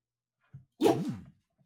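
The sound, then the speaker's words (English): A dog gives one short, moderately loud bark or yelp, with a faint, low sound just before it and no talking. “Was that a dog? Yeah, that's Coco.”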